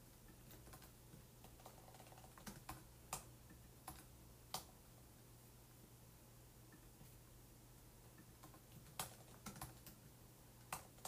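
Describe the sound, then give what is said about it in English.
Typing on a computer keyboard to enter a search, with many quiet, irregular key clicks and occasional sharper taps over a steady low hum, no voices. “Type here for some reason, so I'm going to type here and look up extradition.”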